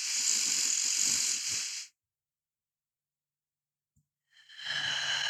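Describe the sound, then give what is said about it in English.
Deep breathing: a long, airy breath fills the opening, then a silent pause follows before a second steady breath begins and runs to the end. “And inhaling a little bit deeper than feels good.”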